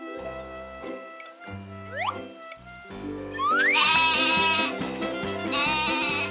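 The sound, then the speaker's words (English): Goat bleating amid a bouncy musical backing. Short, wavering calls blend with steady tonal notes and a few rising pitch slides, with no speech. “The goat says, in its very special way, meh, meh.”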